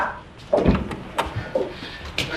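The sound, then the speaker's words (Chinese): A door is opened at home as visitors arrive: a few short clicks, knocks and thumps over a faint background hum, with no talk. “我开门”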